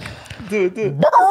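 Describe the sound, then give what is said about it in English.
A person imitates a dog barking, making a few short, throaty, voiced barks that grow louder toward the end. “I will bark at you.”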